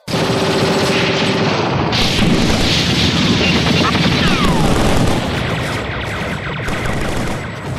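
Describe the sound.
A SWAT team opens fire in a sustained volley of rapid gunfire and booming shots. The barrage stays dense and loud for about five seconds, then thins slightly but continues to the end.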